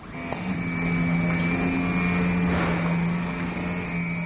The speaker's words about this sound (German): Er zeigt seine neue 200.000 Franken teure Stanzmaschine. Hier schneiden seine Mitarbeiterinnen die Stoffe zu, aus denen in Spanien Unterhosen genäht werden.